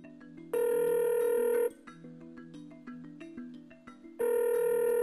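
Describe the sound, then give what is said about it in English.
Ringback tone of an outgoing phone call: two long, steady buzzing rings, each about a second long and separated by a gap of several seconds, with soft melodic notes playing underneath throughout. “Let's dial him up. Let's do it.”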